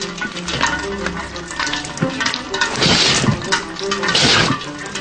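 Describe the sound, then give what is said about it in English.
A hand sweeps through falling water drops, giving a wet splashing and swishing that swells in two louder bursts. “Now, sweep your hand through the drops without getting wet. Lightly.”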